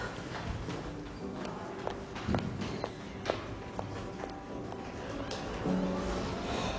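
Footsteps of a man walking out of a room: a steady series of faint, even steps over low background noise, with no voices.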